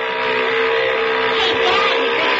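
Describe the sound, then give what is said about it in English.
A motor runs steadily, giving an even droning hum with a constant underlying tone that stays level from start to finish. “Yeah, motor sounds okay.”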